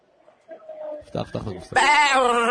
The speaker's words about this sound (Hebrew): איך אתה מצמיד פרסומת לעז, קול של עז מייללת?